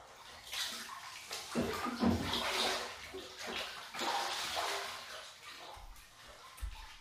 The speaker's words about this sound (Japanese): じゃあ、私は先に体を洗おうかな。